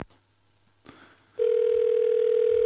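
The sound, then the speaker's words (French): An outgoing telephone call: two faint clicks, then a loud, steady single-pitched tone that begins partway through and holds to the end. “Alors attendez, j'appelle un ami. Bougez pas.”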